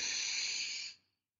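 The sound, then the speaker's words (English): A deep breath is drawn in during a yoga breathing exercise: a steady, airy hiss of inhaled air lasts about a second, then cuts off into silence. “Inhale,”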